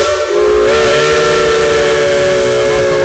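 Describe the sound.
A steam locomotive whistle sounds one loud, steady, sustained blast over a hiss of steam, starting after a brief moment and holding to the end.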